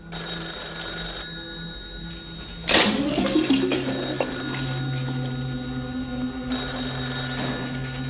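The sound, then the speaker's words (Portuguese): A telephone rings in a dubbed Portuguese film scene: a loud electronic ring at the start, a sharp clatter, then a noisy stretch, and ringing again near the end. “Telefone.”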